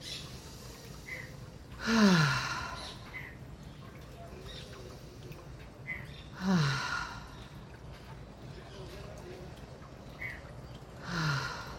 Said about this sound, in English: we're going to go ahead and just take three nice deep inhales and exhales here. You can breathe in through the nose and out through the mouth.